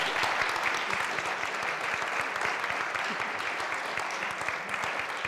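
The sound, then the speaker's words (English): Sustained audience applause welcomes an award winner at an International Impact Award event. Many claps blend into a dense, steady wash that holds at an even loudness throughout. “So please give a warm hand to Marcelo Mena.”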